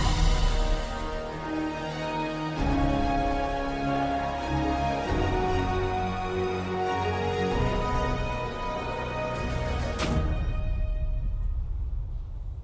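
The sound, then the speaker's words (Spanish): Intro jingle for a Chilean talk show: continuous music with a dense, full sound that shifts character a few times before cutting off sharply near the end. “vamos con esa intro”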